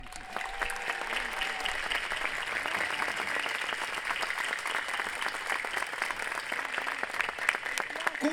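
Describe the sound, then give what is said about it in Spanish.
Audience applause for a choir and its director at a concert: dense, steady clapping from many hands fills the whole clip at an even level, with no break. “pido un aplauso muy sentido y a Axel Holm”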